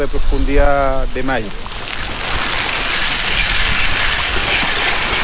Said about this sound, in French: ce son métallique qu'on entend, ce sont des tubes en surface de l'eau qui tournent sur eux-mêmes et qui lancent, qui distribuent l'alimentation aux saumons.